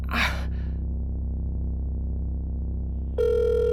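An electronic telephone tone from a call that goes unanswered and to voicemail starts abruptly near the end and holds steady, after a breathy exhale and a long stretch of low, steady hum.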